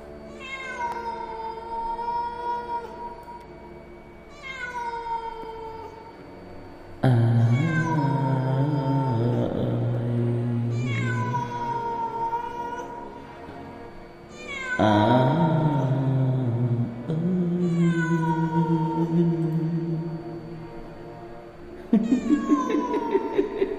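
A cat wails mournfully in a long series of loud, drawn-out meows, each a rising and falling harmonic cry separated by short gaps, with no talking.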